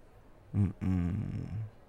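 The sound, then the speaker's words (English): A person gasps raggedly: a short voiced gasp, then a longer rasping, throaty breath, low-pitched and fairly faint, with no talk. “Don't gasp like that.”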